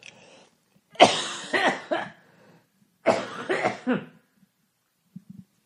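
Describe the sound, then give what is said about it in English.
Harsh coughing from a bad coughing fit, two clusters of three forceful coughs each separated by a pause, then a faint, brief sound. “I'm going to try to talk through the coughs.”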